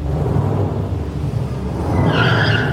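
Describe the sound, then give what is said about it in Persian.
A car drives away, its engine a steady rumble that swells toward the end, where a higher whining tone rises over it. “سوار ماشینش میشه. میره.”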